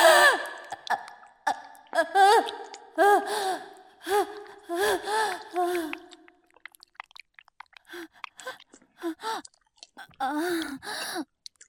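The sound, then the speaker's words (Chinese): A woman pants after tiring housework and tidying, with many breathy, voiced gasps and sighs in an uneven rhythm, louder at first and then quieter and more scattered. “妈妈没事，只是收拾的累了，有点喘气。”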